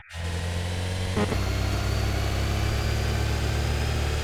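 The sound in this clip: A simulated car engine roars in an accessible audio racing video game, starting almost at once as a loud, steady, low-to-mid drone. The tone shifts briefly a little over a second in, then holds constant.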